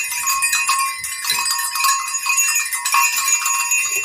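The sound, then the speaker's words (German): Six small herd bells of different sizes jingle and tinkle. Bright metallic strikes ring out in an irregular, overlapping rhythm, and the larger bell's tone is heard throughout. “das sind wahrscheinlich die Glöckchen von einer kleinen Herde.”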